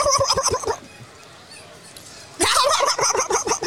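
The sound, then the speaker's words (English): A voice imitates a turkey gobble, made in the back of the throat as a rapid, throaty rattle of many pulses. It comes in two loud bursts separated by a quieter gap. “I like to gobble. You say ga, and then you go obble, obble, obble, obble, but you do it in the back of your throat.”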